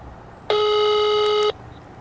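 A telephone ringback tone sounds during a prank call to a Roman trattoria: a single steady, loud electronic tone lasting about one second, starting and stopping sharply against a quiet background.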